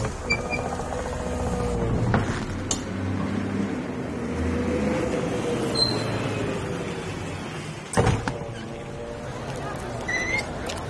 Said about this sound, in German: Lass uns da drüben diesen Touristen-Doppeldeckerbus nehmen. Die fahren ja durch die ganze Stadt zu allen Sehenswürdigkeiten.